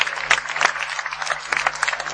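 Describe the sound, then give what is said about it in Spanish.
Audience applause for the supporting institutions at a LAN party in Tenerife, a dense steady patter of clapping with scattered louder bursts, continuous across the whole clip with no speech on top. “un grandísimo aplauso para todas las instituciones que apoyan Tenerife La Parte”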